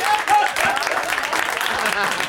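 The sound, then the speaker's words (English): Clapping from a small group of people, rough and uneven, with voices talking over and between the claps throughout. “Why are you clapping at that?”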